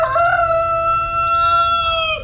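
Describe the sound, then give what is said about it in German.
A neighbor's rooster crows at morning: one long, loud, sustained call with a bright, steady tone that holds for about two seconds, with no voices. “Marthas Hahn bringt auch jeden Morgen die Wende aus der Dunkelheit des Schlafs”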